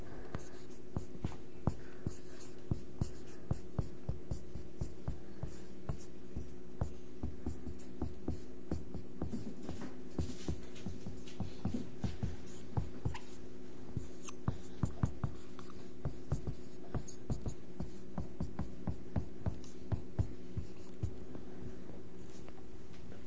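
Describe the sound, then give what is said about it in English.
A definition being written by hand: faint pen scratches made of many short, irregular strokes that continue for a long stretch over a low steady hum. “I'm going to write the definition for you.”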